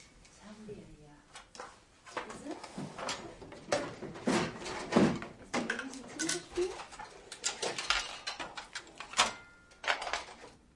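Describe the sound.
Someone rummages through a cupboard, making many light knocks, clatters and rustles of objects being moved, fairly faint and irregular.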